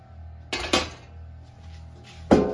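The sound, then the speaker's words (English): A large roasting pan is handled on a kitchen counter, giving three sharp metallic knocks: two close together, then a louder one after a pause. “take your humongous roasting pan”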